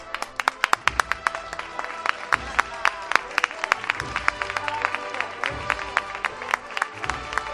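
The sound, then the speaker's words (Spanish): Applause ripples through a street crowd during a religious procession in light drizzle: many sharp, scattered hand claps sound steadily throughout. “Aplausos aquí en la calle Feria.”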